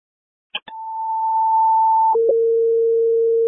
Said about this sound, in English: Stand by for tones.